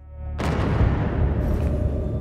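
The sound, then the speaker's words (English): A bomb explodes during an air raid, a sudden loud blast breaking in after a brief low hum and spreading into a heavy, sustained rumbling roar that carries on to the end. “An explosion sent a plume of debris and smoke into the air.”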